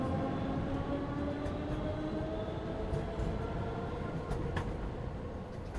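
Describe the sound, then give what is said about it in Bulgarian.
A small train rolls along the rails with a steady, loud rumble of wheels and running gear that holds evenly from start to end, with no clear beat. “Колелата потръпват ритмично по релсите и баладата пак гали слуха ми.”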